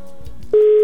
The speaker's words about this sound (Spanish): Hay que esperar a que tome la llamada.